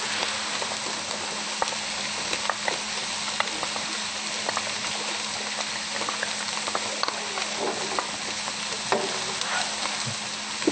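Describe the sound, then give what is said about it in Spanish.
Mushrooms, garlic, onion and red pepper fry in a pan with a steady, dense sizzle, broken by scattered small pops and clicks as the vegetables are stirred. “Y el locote rojo. Revolvemos bien y dejamos que se dore bien doradito.”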